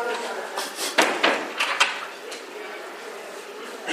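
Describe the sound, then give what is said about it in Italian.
A door being closed, heard as a few soft thuds and rattles in quick succession amid light room noise, with a voice faintly present. “Chiudi pure la porta, che queste danno fastidio, queste voci, grazie.”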